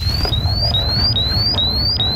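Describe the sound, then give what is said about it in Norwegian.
A gas detector alarm goes off in a livestock barn where manure is being stirred: a loud, high electronic chirp that sweeps upward and resets roughly every half second, repeating steadily over a low rumbling background. “Alarmen går fra gassmåleren.”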